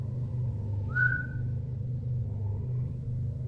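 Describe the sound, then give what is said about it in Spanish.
A person gives a single short whistle, sliding up and then holding a high note, heard briefly over a steady low rumble. “un silbido me llamó la atención.”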